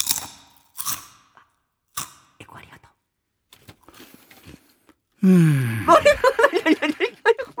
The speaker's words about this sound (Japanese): ポテトなんでしょうけど、 はい、いっちゃってください。じゃあ一口ちょっと、 今食べるんですか。